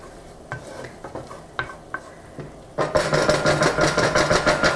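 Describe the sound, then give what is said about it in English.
Lemon zest and juice are stirred into butter in a pan, starting with a few scattered taps and scrapes of the utensil. Loud sizzling then takes over, with quick rhythmic stirring strokes over it. “So you want to stir.”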